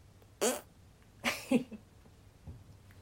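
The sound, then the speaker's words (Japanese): Farts released at work after a lunch break: a few short, blurting bursts of flatulence, the middle one longer and wavering, followed by a much fainter final puff, with quiet stillness between them. “胃腸がだいぶ動いてる感じがしておならが出そうなので出していこうと思います。”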